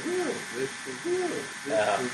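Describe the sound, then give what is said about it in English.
A voice imitates the call of a whippoorwill, the loud bird heard all night while camping in a tent. A few hooting, arched vocal phrases follow one another quickly at a moderate level. “And there was these whippoorwills that were going, like, for hours and hours, like, all night.”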